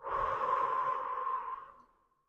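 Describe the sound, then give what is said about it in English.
A single slow, deep exhale through the mouth during a guided breathing exercise, a soft, steady breathy rush lasting about two seconds that fades into silence. “Breathe in through the nose. And exhale out of the mouth.”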